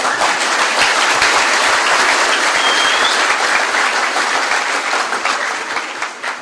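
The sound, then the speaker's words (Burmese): An audience breaks into sustained applause: dense, even clapping from many hands holds steady and loud for about six seconds, then thins slightly at the end. “ကျွန်တော်လက်ခုပ်ကြောက်တယ်”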